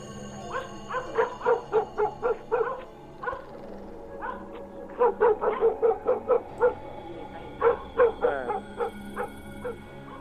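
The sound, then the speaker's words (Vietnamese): Dogs barking noisily around a village neighbourhood, many sharp barks in rapid runs separated by short pauses, fairly loud with a steady low hum underneath. “Ở xung quanh, tiếng chó cứ sủa ầm ĩ cả lên, rồi chó tru dài rộn ràng cả xóm”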